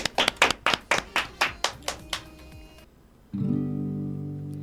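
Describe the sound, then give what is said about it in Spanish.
An audience claps to welcome a singer, a quick run of sharp, rhythmic hand claps that gradually fade, followed by sustained musical tones. “Un aplauso para Sara ella. Sara Ropes, un aplauso aquí.”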